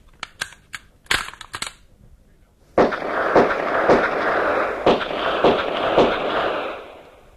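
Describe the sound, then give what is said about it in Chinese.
Gunshots are fired at a target: a quick series of sharp, loud cracks, then a sustained rushing crackle broken by several further bangs. “队长，好枪法呀，真是名不虚传。六发子弹靶上只见两个洞”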